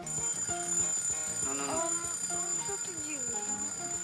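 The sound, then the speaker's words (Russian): Ringing alarm clock held up to a sleeping young woman's ear, giving a continuous melodic run of bright, pitched tones that carries on steadily throughout. “подносит к ее уху будильник”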